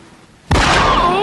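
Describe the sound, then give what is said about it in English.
A gunshot sound effect from a comedy skit: after quiet voices, one sudden loud blast erupts, and its dense, noisy tail lasts to the end. “Oh! He shot me in my pinky toe.”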